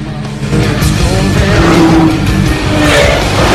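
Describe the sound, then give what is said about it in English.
Engines of Porsche, Lamborghini, Chevrolet and BMW supercars driving together in convoy at dusk, a loud, dense, continuous roar that swells after a quieter opening and holds steady throughout. “They tear the name banners off windscreens and jump into their new toys. Porsche, Lamborghini, Chevrolet and BMW. They drive in convoy, headlights blazing through the red glow of dusk.”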